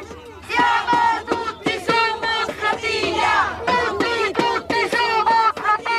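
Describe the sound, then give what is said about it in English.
Protesters on a boat on the Tiber in Rome chant together in support of the Gaza flotilla. Loud group voices shout in a steady, rhythmic pattern of short bursts, one after another. “It gets a good reception. People wave at us from bridges and join in with the chants.”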